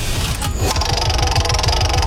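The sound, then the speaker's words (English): A prize wheel spun during a game clicks rapidly and evenly, its ticks following a short burst of noise and running steadily to the end. “shall we bring out the wheel and give it a spin?”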